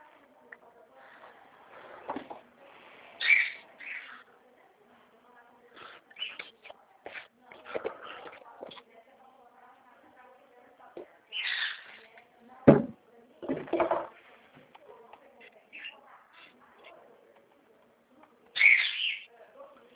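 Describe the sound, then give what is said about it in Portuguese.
A small bird chirps in short, scattered bursts, several bright tweets spread across the span, with quiet voices talking faintly in between. “escutando um passarinho, é um passarinho?”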